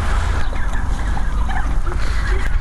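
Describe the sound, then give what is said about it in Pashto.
Turkeys gobble and squabble noisily as a man tosses them handfuls of corn kernels. The flock calls overlap in a continuous, loud, rough clamor with no distinct pauses. “فیل مرغانو هم د خړو په لیدو سره شور جوړ کړي”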